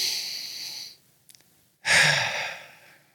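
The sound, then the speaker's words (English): Deep breaths from a person: one long airy rush fades out over the first second, then after a near-silent pause with a few faint clicks, a louder breath swells sharply and slowly tapers away. “If you breathe in deeply in this moment right now,”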